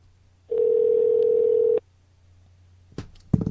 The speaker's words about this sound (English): She's not going to pick up. She probably sees the caller ID that it's you.